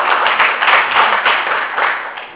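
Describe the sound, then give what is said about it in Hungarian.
Applause from an audience at a Hungarian-language gathering, thanking a speaker who used Slovak. It is a thick, continuous patter of many hands at a strong level, swelling and easing slightly before tapering off near the end. “Hiszem, hogy megér egy tapsot, köszönjük szépen!”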